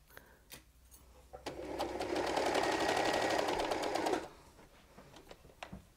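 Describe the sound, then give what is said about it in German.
A sewing machine, run by its foot pedal, stitches fabric all the way around in one rapid, steady whirring burst of about three seconds. A few sharp clicks and knocks come before and after it. “ich muss jetzt erstmal hier das Gaspedal finden. Da ist es. Und dann nähe ich das einmal rundherum fest.”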